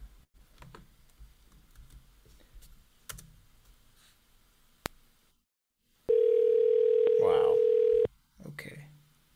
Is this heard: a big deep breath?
no

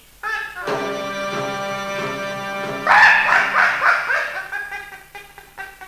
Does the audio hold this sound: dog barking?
yes

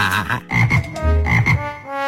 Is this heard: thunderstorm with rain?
no

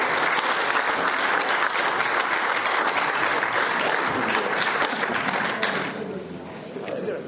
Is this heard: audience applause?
yes

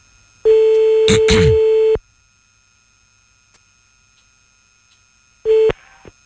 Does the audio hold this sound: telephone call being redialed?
yes

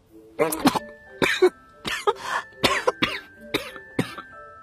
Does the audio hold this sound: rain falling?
no

